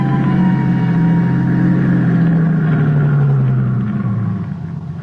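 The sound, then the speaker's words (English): A car engine drones as it drives up a mountain road toward a camp: a loud, steady mid-pitched hum and rumble whose tone sags slightly, easing off in the final second. “There was only one way to check it out. Drive up to Primrose Camp.”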